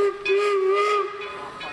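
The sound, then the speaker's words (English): An old-fashioned steam locomotive whistle blows at a gathering of train fans in Owosso, Michigan: one loud, sustained, steady hooting tone with rich harmonics and an airy hiss of steam, fading at the end. “Old-fashioned steam locomotives.”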